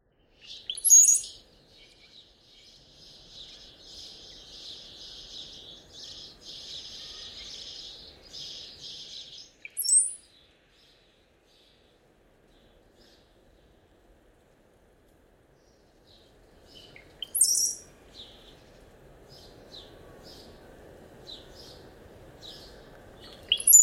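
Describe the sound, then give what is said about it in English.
Ring-billed gull calls come as a few brief, high, bright bursts separated by quiet stretches, with a fainter, buzzy, high band sustained between some of them. “Ring-billed gull.”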